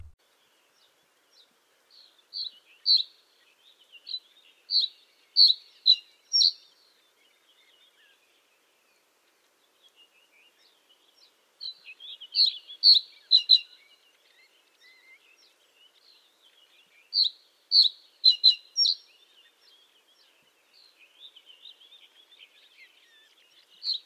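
A small bird sings from a perch high in a tree, bush or reed. Its high chirps come in three separate phrases of rapid, repeated notes with pauses between them. The song is faint and there is no other sound.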